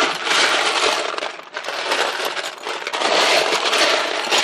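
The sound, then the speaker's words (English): Plastic Lego bricks clatter and rattle as a hand rummages through a pile, making a dense, bright, continuous jangle that dips briefly midway before building again. “That was the sound of me searching for Legos.”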